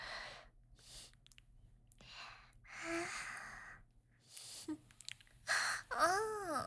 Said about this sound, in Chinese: 你吸气好重啊，弄得我脚心好痒啊